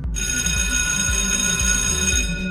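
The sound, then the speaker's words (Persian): An electric school bell rings without a break, a bright, metallic ringing with high overtones held steady for the whole stretch, over a low, rhythmic rumble. “وقتی صدای زنگ مدرسه رو شنیدید”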